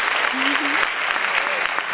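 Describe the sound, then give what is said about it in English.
Applause welcoming a singer-songwriter guest onto a show, a steady wash of clapping with voices speaking over it. “You got to have the applause.”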